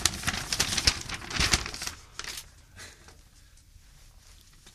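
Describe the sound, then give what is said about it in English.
A paper envelope is opened and handled: loud crinkling and tearing rustles crowd the first two seconds, then give way to softer, sparser paper handling. “Envelope inside. What's this?”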